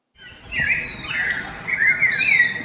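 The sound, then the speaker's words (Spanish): Bird singing in the morning: bright whistled phrases that slide up and down in pitch, fairly loud over a low, steady background hum. “¿Conoces ese pájaro que canta todas las mañanas? Sí, dice mi abuelito que se llama Ishkok y canta porque pide lluvia.”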